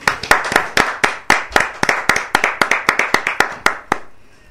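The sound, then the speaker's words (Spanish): Applause at an evening program: many sharp, distinct hand claps in a quick, uneven stream that lasts about four seconds, then stops. “Un aplauso para vos.”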